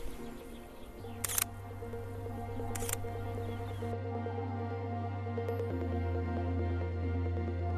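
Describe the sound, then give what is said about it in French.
Two crisp camera shutter clicks, about a second and a half apart, as a first photo of cows is taken in a Charolais pasture over a steady low background hum. “on va essayer de s'approcher un peu plus doucement. Je vais faire une première photo pour voir.”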